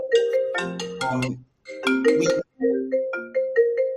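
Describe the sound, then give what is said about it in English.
A cell phone rings with an incoming call, playing a melodic ringtone of bright tonal notes in three phrases separated by brief pauses. The tone is loud and steady. “is it a cell phone? No, believe it or not, I'm getting a troll, one of those Telegram troll ladies calling.”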